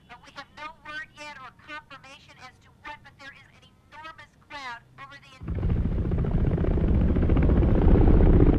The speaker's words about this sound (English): Two military choppers appear in the sky above the president's motorcade.